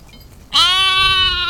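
Sheep from a bell-wearing flock bleating: one loud, sustained, quavering bleat with a strongly tonal, nasal quality that starts abruptly and holds steady to the end.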